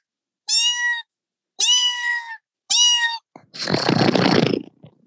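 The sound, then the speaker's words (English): A voice imitating a cat gives three clear, tuneful meows in a steady rhythm, followed by a longer, rough, breathy noise. “And the cats are annoyingly interested when you go, meow, meow,”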